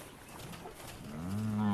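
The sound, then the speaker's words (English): A calf moos once in a field, a low, drawn-out bovine call that rises out of faint background noise near the end and holds its pitch. “The delinquent calf was finally corralled into the field.”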